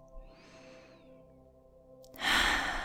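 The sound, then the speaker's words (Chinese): A deep breath drawn in through the nose during a breathing exercise, a breathy rush that swells near the end over soft, sustained piano notes, with a faint earlier breath. “现在，再次进行三组深长呼吸，鼻腔吸入，”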